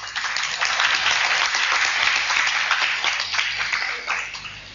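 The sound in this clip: Audience applause at a spoken discourse: dense, sustained clapping from many hands, loud and steady, easing off slightly toward the end.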